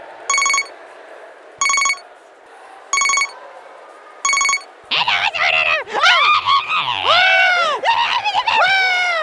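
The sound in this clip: A telephone rings while someone is being called: four evenly spaced, bright ring bursts with pauses between them, followed by high, squealing, exaggerated voices.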